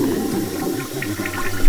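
A toilet flushes in a prison cell with a loud, steady rush of water that swells slightly at the very end.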